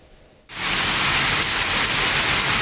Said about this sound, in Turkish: Yurdun bazı noktalarında sağanak ve dolu etkili oldu.